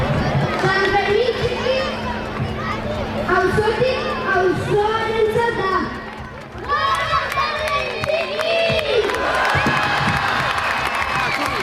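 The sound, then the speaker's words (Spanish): Festive crowd in Pamplona's old town during San Fermín Chiquito, a loud, continuous mix of shouting and cheering voices, children's among them, with little letup. “Mientras, el casco viejo de Pamplona ya está sumido en las fiestas de San Fermín Chiquito.”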